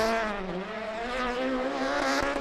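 Engine drone of a rally car taking a gentle spin around Glasgow city streets, a steady, moderately loud harmonic hum whose pitch wavers slightly, with a brief sharp click near the end.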